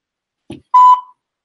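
A single voicemail beep on a phone call: one steady, mid-pitched electronic tone lasting about a third of a second, loud and clear, preceded by a brief soft burst of noise and then trailing off into silence.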